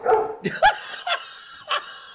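A pet dog barks in a series of short, sharp barks and higher yips, loud and irregular, with brief pauses between the bursts.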